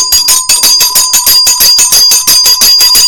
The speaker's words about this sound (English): I give you Wazobia Bell.